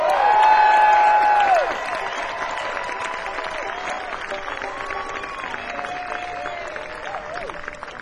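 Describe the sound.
Audience applause with some crowd cheering as musician Bela Fleck is welcomed on stage: a broad wash of clapping that follows a brief sustained tone at the start and carries on steadily at moderate loudness.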